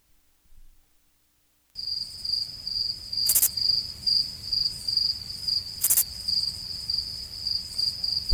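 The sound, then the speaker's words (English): A crickets chirping sound effect starts after a short silence as a high, bright trill pulsing in a steady rhythm. Two sharp clicks cut through the chirping partway along. “especially if you're outside praying, obviously you're going to hear crickets a little bit more than inside, hopefully.”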